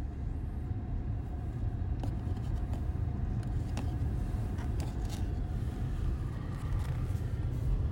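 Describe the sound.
A car stuck in traffic, a steady low engine and road rumble with a few faint clicks on top, quiet and unchanging throughout.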